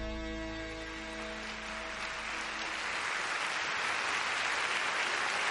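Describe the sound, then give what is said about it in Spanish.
An audience applauds a singer at the end of a song. The last sustained musical tones fade out as broad clapping swells and then holds steady and full. “El público le aplaude.”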